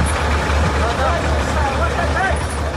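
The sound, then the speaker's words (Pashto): Large trucks on a muddy mountain road between Uruzgan and Kandahar, helping smaller vehicles through ruts: a steady, dense engine rumble and road noise runs throughout, with voices over it. “دا د روزګان او کندهار د لیلارې پر سر غټ موټرونه دي چې د کوچنی موټرو سره مرسته کوي ترڅو لړوړو او ژورو یې تیر کړي”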